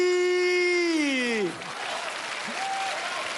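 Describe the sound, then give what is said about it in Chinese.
Audience applause for a street vendor's song while he sells thirteen-spice seasoning: a held sung note slides downward and ends, then steady, dense clapping fills the rest. “又来了又来了，您各位都拍不上了还鼓掌的， 我好唱的好 还鼓掌的 啊”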